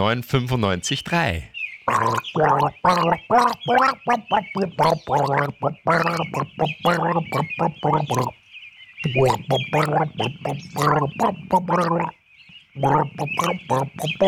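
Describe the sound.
A person gargling a song, the tune carried as wet, bubbling vocal phrases in a steady rhythm with a few brief pauses between them.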